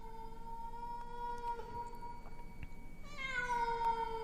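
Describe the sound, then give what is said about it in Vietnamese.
A cat yowls mournfully on a roof, one long, wavering, tonal cry held throughout that jumps higher and louder near the end, faint and alone. “Bất giác ở trên mái nhà, tiếng con mèo hồi nãy lại vang lên đến não lòng, réo rắt làm cho Nguyệt”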